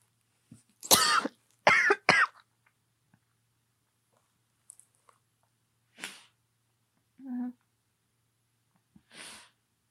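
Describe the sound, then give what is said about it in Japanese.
Coughing from a person just recovering from illness: a few sharp, loud coughs close together early on, then quieter scattered short throat and breath sounds with pauses between them. “ごめんなさい、咳が。で、咳が出てしまった。”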